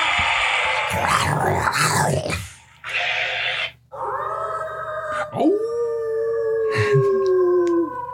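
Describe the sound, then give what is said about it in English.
A werewolf howl rises sharply into a long, wavering tone that slowly sinks, loud and sustained. Rough, noisy growling bursts come before it, and a short yelp breaks in near the end. “oh, werewolf sounds. Here we go. Let's see. Is that what a werewolf sounds like? Is that like a legitimate werewolf sound?”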